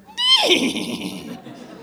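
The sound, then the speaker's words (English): A horse neighs once, a bright, shrill whinny that starts high and slides steadily downward, then trails off into a fading rasp within about a second. “That was obviously the horse.”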